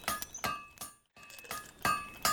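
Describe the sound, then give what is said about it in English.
Ringing metallic clinks of a hammer forging a piece of metal at a fire in a video game, many quick repeated strikes with a short pause midway. “Alright, at my fire, I need to forge hammer with a piece of metal. Now hitting T while standing on my fire. I need to hit T lots of times until I have a bent metal.”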